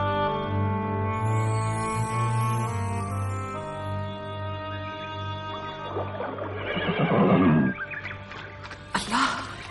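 A dark horse neighs: a loud, shaky whinny bursts out over a steady, sustained musical drone, followed by a brief, harsher burst near the end.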